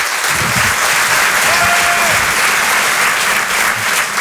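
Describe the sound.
Audience applause welcoming a performer onto the stage at a comedy evening: dense, loud clapping from a crowd that stays steady throughout, with no pauses.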